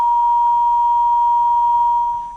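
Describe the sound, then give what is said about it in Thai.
A telephone line's disconnect tone after a dropped call: one steady, loud, unbroken mid-high tone that holds for about two seconds and eases slightly at the end. “แสดงว่าสายหลุดไม่เป็นไรนะครับ”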